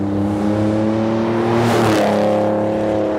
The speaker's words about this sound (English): I'm going to say that is a V6. Okay. That's got to be a V6.